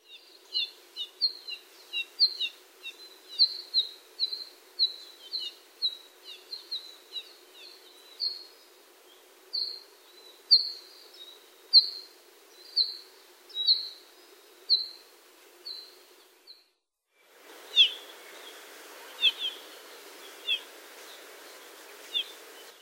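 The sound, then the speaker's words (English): Apapane flight calls from a small flock flying toward blooming ohia lehua: many short, high chirps in an irregular series. After a brief gap near the end, a few more calls follow. “Their flight calls are often heard as a small flock flies to a distant blooming ohialehua.”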